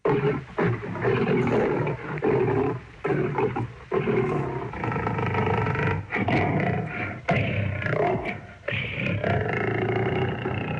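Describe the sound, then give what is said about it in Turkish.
A lion roars and growls in many loud, rough bursts separated by brief gaps. The deep, gravelly rumbling continues throughout with no voices. “Aslan böyle kükreyip homurdanarak kara kıta Afrika'ya çağırdı beni.”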